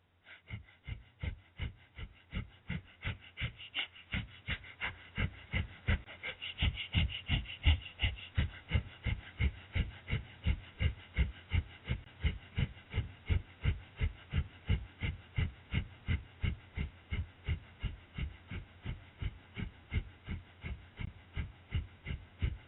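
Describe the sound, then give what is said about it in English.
Breath of fire, a rapid yoga breathing done during a seated inner-thigh stretch, sounds as forceful rhythmic breaths pulsing steadily at roughly two per second for the whole stretch, evenly spaced and unbroken, with no talk. “We're going to do breath of fire with this stretch for 2 minutes.”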